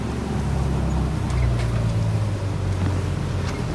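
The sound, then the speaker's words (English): A boat's engine drones steadily on the water, a low rumbling hum with a faint higher whine that holds at an even loudness throughout, with no voices. “Might be a whaler. No, that's Nick Atkins' boat.”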